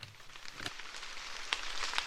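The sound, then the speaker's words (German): Light drizzle patters on a maize field in Franconia, the first rain after weeks of drought. The sound is a faint, irregular scatter of soft ticks and drops. “Leichter Nieselregen prasselt auf den Maisacker von Thorsten Sturm aus dem fränkischen Obernzenn.”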